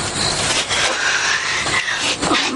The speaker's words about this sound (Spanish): Vuelven a besarse cuando de pronto llega el tren.